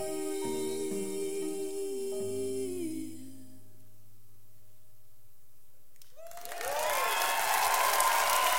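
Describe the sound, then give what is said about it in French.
Audience applause after a sung piece: sustained musical tones fade to near silence, then a dense burst of clapping swells in and carries on to the end. “Voilà, c'est sur ces applaudissements qu'on se laisse.”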